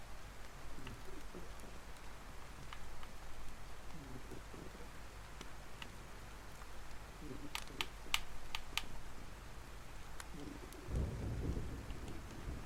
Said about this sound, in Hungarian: Odakint rendületlenül dörög az ég.